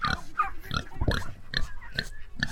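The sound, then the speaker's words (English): A pregnant young pig grunts and snorts in a quick, uneven series of short, rough, low grunts, with a few higher squeaky notes mixed in. The sounds are moderately quiet. “She's pregnant. We're waiting on her to give us some piglets.”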